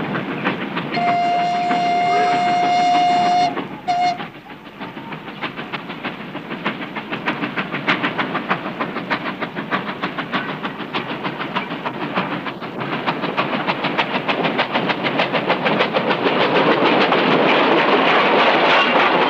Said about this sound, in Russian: По лесу, дымя черным дымом, едет состав с лесом.